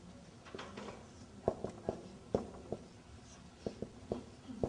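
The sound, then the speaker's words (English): Writing by hand: faint scratchy pen strokes broken by a series of sharper taps and ticks, irregularly spaced with short gaps between them. “Let me write down.”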